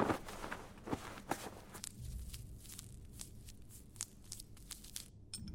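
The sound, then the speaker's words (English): Footsteps of a woman walking over to an injured man: a steady run of many soft, slightly crunchy steps, faint and heard alone without talk. “She then walked over to Mark and unwrapped his leg.”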